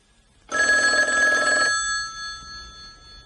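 A telephone bell rings once, loud and bright for about a second, then its tone fades into quiet.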